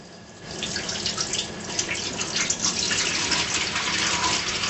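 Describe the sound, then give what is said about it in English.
Running filtered water gushes steadily from a kitchen tap as food is rinsed. A continuous hissing stream begins after a brief quieter moment and holds at a fairly constant level. “You add the water and you rinse it in the filter water. Here we have filter water.”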